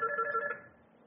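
An electronic telephone rings with an incoming call: one short warbling trill that pulses for about half a second, then fades away. The ring plays alone.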